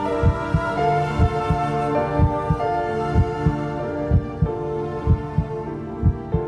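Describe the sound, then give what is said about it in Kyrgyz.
A heartbeat as heard from inside the mother's womb, a steady, even rhythm of soft, deep double thumps repeating throughout over a sustained low musical drone. “Дүк-дүк-дүк, аяр жумшак какканда, дүн ойгонуп, канайланып акканда, алгач ирет ушул үндү эшиткем, апакемдин курсагында жатканда.”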